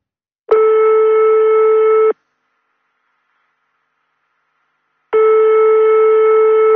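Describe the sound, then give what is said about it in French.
A telephone ringback tone sounds twice, each a steady electronic buzz lasting about a second and a half. A long silent gap separates the two tones, and no voices are heard. “On compose le numéro et on fait sonner.”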